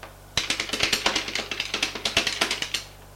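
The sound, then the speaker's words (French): Typing on a computer keyboard at a hospital: a steady run of many quick, light key clicks with an uneven rhythm, fairly faint over a low background hum, with no one talking. “Elle tape sur son ordinateur. Oh, ces appareils!”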